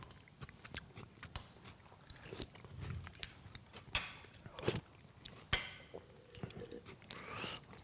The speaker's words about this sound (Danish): Ah, lidt musling, musling skal der også til. Frygtelig besværlig mad at sidde og spise, det her